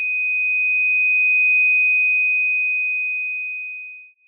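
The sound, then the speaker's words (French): A pure, high-pitched steady tone from a signal generator plays through two loudspeakers. It holds loud and unbroken, swells gently, then briefly dips near the end. “En choisissant une fréquence de 3 kHz, la longueur d'onde est de l'ordre de la dizaine de centimètres.”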